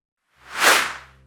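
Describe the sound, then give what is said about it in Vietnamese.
An arrow is loosed from a bow with a single airy whoosh that swells and then fades over about a second, heard alone. “Lê Đạt nghe xong thì giật mình, tay trật đi một nhịp, mũi tên liền chạch hướng đi khỏi.”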